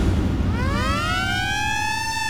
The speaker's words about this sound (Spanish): Piel de gallina cada vez que se activa la sirena en Radio Disney 94.3